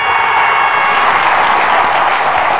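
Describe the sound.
Dense applause from many hands fills the whole stretch, loud, even and unbroken with no talk over it.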